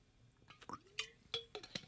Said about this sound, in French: Je prends une goutte d'eau.